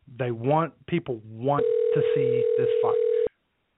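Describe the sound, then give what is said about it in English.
A steady, unbroken telephone dial tone sounds for under two seconds, holding one even pitch before cutting off abruptly. A man's voice talks just before it and continues briefly over it. “And if you're hearing dialing right now, it's because I'm getting... Hello?”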